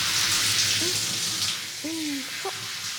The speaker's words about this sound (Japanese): 泡がどんどん流れて、見ていて気持ちがいいですね。水に落としがないように、水でも泡を落として、